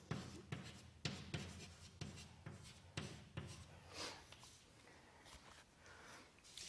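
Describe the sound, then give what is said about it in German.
Soft handwriting strokes as someone copies a formula by hand: many quiet, scratchy pen-on-paper strokes in uneven bursts, with brief pauses between the lines. “Dann jetzt hier das P' schreibe ich das ab.”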